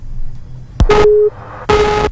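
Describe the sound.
A phone line's busy tone follows a cut-off call: a sharp click, then two loud, steady low beeps of equal length separated by a short pause.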